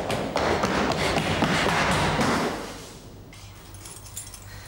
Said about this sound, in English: He taps the key nervously in his hand.